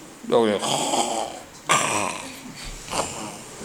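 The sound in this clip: A voice imitates the snoring of a person asleep while sitting upright: three loud, rasping, throaty snores, each drawn out, with the last one fainter.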